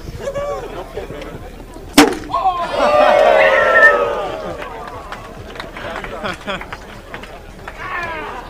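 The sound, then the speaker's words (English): A potato gun shooting glow sticks into the air gives a single sharp, loud bang, surrounded by a crowd of people talking and shouting. “Over there's the Austrians with the potato gun. They seem to be shooting glow sticks up in the air now. Austrians shooting potato guns at a building.”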